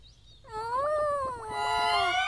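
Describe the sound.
A baby crying: a sustained, high, tonal wail that starts after a short lead-in of background noise and stays steady, swelling slightly louder toward the end.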